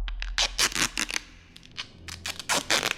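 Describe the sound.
Duct tape is pulled open in quick, loud ripping bursts: a rapid run of tearing rasps, a brief quieter lull, then another cluster of harsh rips.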